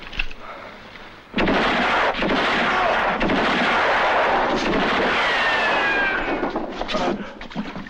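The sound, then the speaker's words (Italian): Pistol gunshots in a film scene burst in after a quieter opening, then a dense, loud barrage of firing holds steady with several sharp cracks standing out before easing slightly at the end. “Quando si spara, non si parla. Ogni pistola ha la sua voce. E questa la conosco.”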